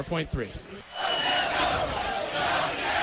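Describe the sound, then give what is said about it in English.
A crowd in a downtown Winnipeg bar next to the hockey arena joins in O Canada. After a brief spoken voice, a loud, sustained massed roar of many voices takes over and holds steady to the end. “An impromptu version of O Canada just went through the bar here. A fabulous rendition, if I must say so myself.”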